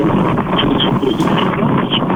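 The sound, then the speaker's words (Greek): Strong wind on Samos buffets the microphone with a loud, steady rushing roar that surges and dips slightly without letting up. “Παιδιά, έχει γενικός αέρα εδώ στην Σάμο.”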